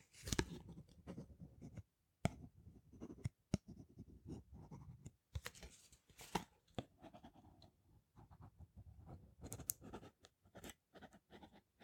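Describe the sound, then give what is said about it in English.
A pen writing on a card at a florist's counter: quiet scratchy strokes come in short bursts separated by brief pauses, soft and close, with a few light taps, and no talking. “I'll just grab my pen and I'll jot that on the card for you.”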